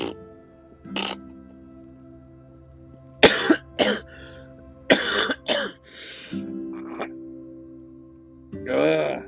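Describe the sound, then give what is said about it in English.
Coughing from a person who is ill with an upset stomach: a series of harsh, raspy coughs in irregular bursts, some bunched in quick clusters, with quiet pauses between them and a low steady hum underneath. “the more I cough, the more I feel my stomach is going inside out. I'm not even kidding how my stomach is feeling right now with coughing every single minute.”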